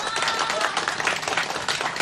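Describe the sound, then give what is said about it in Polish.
Audience applause for an eight-year-old girl at a radio event where listeners met the presenters: dense, steady clapping from a crowd that holds at an even, fairly loud level throughout, with no voices standing out. “Proszę o klaski dla niej.”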